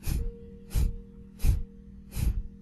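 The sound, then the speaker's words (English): Four quick, sharp breaths through the nose, each a short airy burst evenly spaced in a steady rhythm, heard alone without talk. “beginning now to simply take in 4 quick breaths, followed by 4 quick out-breaths.”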